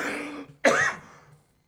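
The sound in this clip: Coughing: a few harsh, throaty coughs in short bursts separated by silence, loud, with the last one starting abruptly at the end.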